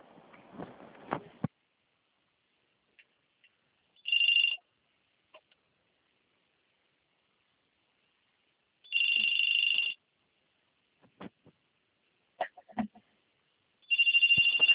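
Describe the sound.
Ringback tone plays while a bank phone call is transferred: three loud, buzzing electronic rings about five seconds apart, separated by near silence with a few faint clicks.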